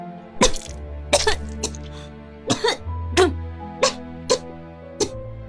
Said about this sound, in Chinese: 季彤猛咳了几声，呛出水来。